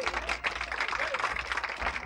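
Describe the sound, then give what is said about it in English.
An audience gives a dense, steady round of clapping to welcome performers to the stage, with voices mixed into the applause. “All right, just let's give a big welcome to Carter and Ralph Stanley and George Shuffler, please.”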